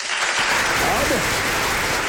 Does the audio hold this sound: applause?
yes